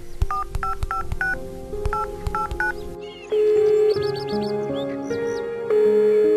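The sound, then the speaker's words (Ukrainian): Keypad dialing tones from a mobile phone calling a contact, two quick runs of short beeps in the first half, then a different, steadier warbling tonal sound takes over for the rest. “Я вмикаю мобільний і натискаю перше ім'я у моєму списку.”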